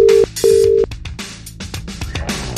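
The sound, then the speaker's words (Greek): An unanswered phone call rings out as two steady, low-pitched ringback tones. Scattered clattering noises follow. “Δυστυχώς η Τίλα δεν το σηκώνει.”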